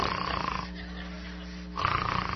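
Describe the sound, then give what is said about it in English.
A low, steady snore drones for about a second, set between louder, noisier passages before and after it. “What's that, snoring?”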